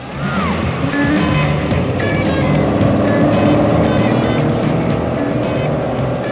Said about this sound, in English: Driving for 2 whole hours. Let's pull this rig over and take a break.